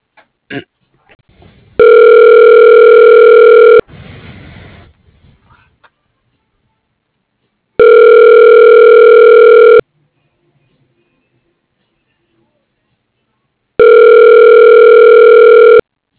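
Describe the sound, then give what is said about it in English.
Telephone ringback tone during a call transfer: three loud two-second bursts of a steady, buzzy tone, each followed by about four seconds of silence, with brief faint clicks and a short rustle near the start. “please hold while I transfer your call.”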